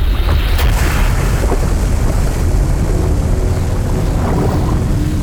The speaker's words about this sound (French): Le barrage de Malpasset vient de céder. Une vague de 40 mètres de haut se précipite dans la vallée du Réran.